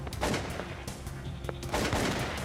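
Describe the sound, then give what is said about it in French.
Rifle gunfire during a police shootout with kidnappers: a few sharp, loud cracks separated by irregular gaps, with rough noisy rumble between and after the shots. “Et chaque fois qu'il faisait feu avec sa carabine, il y avait des éclats de lumière tout autour.”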